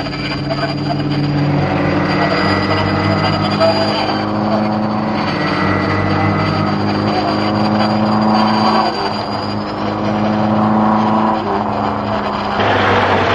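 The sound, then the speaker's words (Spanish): A line of cars approaching, one of them towing a caravan, gives a steady droning engine sound with continuous rolling road noise. It holds at an even, fairly loud level throughout with a brief dip near the end. “por donde se aproxima una fila de coches, uno de ellos tirando de una roulotte.”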